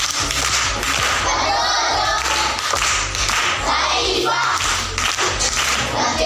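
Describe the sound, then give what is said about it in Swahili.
Group clapping at a primary school gathering, given for a participant: loud, rhythmic applause with sharp, repeated hand claps that continue steadily through the whole clip. “Makofi kwa mjomba.”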